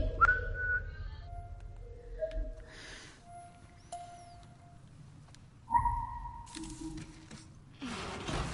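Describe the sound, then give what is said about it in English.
A person whistles a few short, clear tones at varying pitches, with breaks between the notes and a soft rustling noise in the background. “I didn't know you could whistle”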